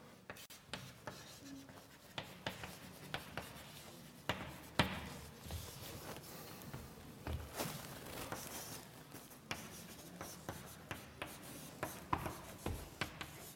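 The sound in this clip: Writing by hand during a maths lecture: many faint scratching strokes and light taps in irregular bursts, with no talk over them.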